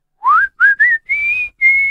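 Someone whistles a short tune of five clear, loud notes with no other sound. The first note glides upward, two quick notes follow, and the last two are held longer.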